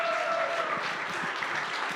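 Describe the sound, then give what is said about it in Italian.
Applause from a church audience welcoming a pastor to preach. Dense, steady clapping fills the whole clip, with a faint held tone over it at the start. “e quindi vogliamo accoglierla con un grandissimo applauso”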